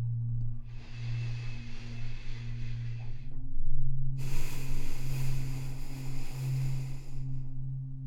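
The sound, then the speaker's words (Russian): Slow, deep breathing: a long airy inhale and a long airy exhale, each lasting about three seconds with a short pause between them, over a steady low hum. “На четыре счета делаем глубокий вдох, на четыре счета выдох.”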